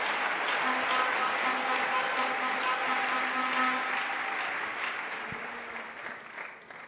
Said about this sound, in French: Je suis bien conscient que tout le monde n'a pas acclamé, mais j'aurais aimé que tout le monde acclame.